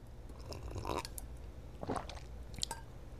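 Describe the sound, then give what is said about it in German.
Faint mouth sounds of someone sipping hot chocolate: a few soft slurping, swallowing bursts spaced apart over a quiet background. “So, jetzt muss ich gerade kurz mal von meiner heißen Schokolade trinken.”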